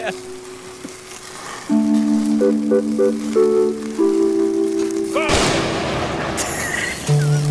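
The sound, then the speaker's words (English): A grill firing up: after a quieter stretch with steady tones, a sudden loud rushing, sizzling burst flares up and hisses on for a couple of seconds. “That's the grill firing up. Makes more sense now.”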